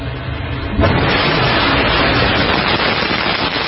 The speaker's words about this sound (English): A Northrop Grumman Antares rocket blasted off from NASA's Wallops flight facility last night.